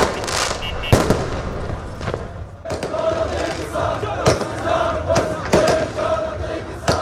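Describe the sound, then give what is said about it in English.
Night street celebrations in Baghdad: a loud, steady crowd din punctuated by several sharp, booming firework bangs at uneven intervals, with a sustained tonal cry running through the noise. “here are the sounds of celebrations in the capital, Baghdad, on Wednesday night.”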